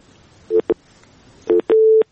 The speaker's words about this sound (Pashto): ستاسو اړیکه هم وشلې ده